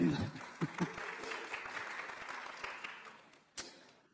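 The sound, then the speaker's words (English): A round of applause from an audience after a Bible passage is read aloud. Fairly faint, steady patter with a few louder claps scattered through. “this is a passage that's worthy of a round of applause. Thank you, Stephen.”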